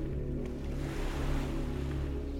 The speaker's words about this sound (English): Ripples form in the water's surface, preceding a rush of bubbles which then turn into a frothing mass beneath you.